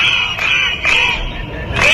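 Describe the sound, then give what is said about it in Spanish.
Protesting teachers in Catalonia shout together as a crowd, their voices rising in loud, regular bursts about once a second, like a rhythmic chant. “Este es el sonido de una nueva jornada de protestas de los profesores en Cataluña.”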